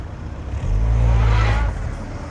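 A car driving fast, its engine surging into a loud, low roar for about a second before dropping away.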